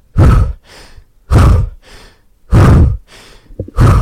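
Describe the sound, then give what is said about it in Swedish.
Rapid power breathing: forceful, loud breaths alternate with softer, airy ones in a quick, regular rhythm. Four strong breaths stand out, with quieter breaths between them and no talk. “lite åt Wim Hof-andningen, men sen så när man gör power breathing så andas vi jobbar lite mer med snabbare inandning och utandning. Kan du visa?”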